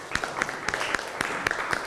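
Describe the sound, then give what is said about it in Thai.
Children clapping for themselves during a classroom lesson on clay moulding: claps land in a steady, even rhythm, with the group's hands striking roughly together on each beat. “ปรบมือให้ตัวเองหน่อย”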